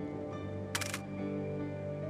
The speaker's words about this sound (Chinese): 他掏出相机，先给山门拍了一张照片。